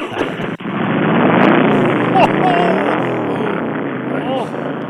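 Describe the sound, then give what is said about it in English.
Engine of a 2002 Softail Deuce motorcycle just fired up: a loud, rough, steady rumble that runs without pause for the whole clip. “First, we're going to fire up the 2002 Softail Deuce, which is the hubby's bike.”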